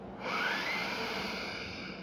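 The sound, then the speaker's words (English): A long, deep inhale through the nose during a guided relaxation breathing exercise, heard alone as a steady, quiet, breathy rush lasting nearly two seconds. “A third deep inhale in through your nose.”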